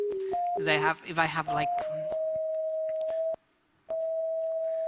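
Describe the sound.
An electronic tone from a colour sensor, the sound assigned to purple. A pure, steady tone steps between a few pitches at the start, then holds one pitch with a short break near the end. A voice speaks briefly over it early on.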